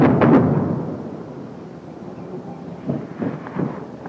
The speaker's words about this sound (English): That's too close. Airstrike.